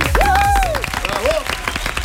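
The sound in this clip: Applause, with loud, dense clapping that rings at first and then thins into scattered claps, while a voice rises and falls over it.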